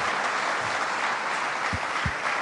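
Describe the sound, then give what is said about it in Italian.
Steady applause from an audience at a speech: dense, continuous clapping at an even level throughout, with no talk. “Grazie amici per l'applauso.”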